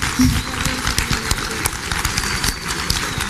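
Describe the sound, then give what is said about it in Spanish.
Audience applause after a talk on media and politics at a conference session: brisk, dense clapping from many hands at a steady, fairly loud level throughout. “Entonces les pido que le den otro aplauso acá a Blanca.”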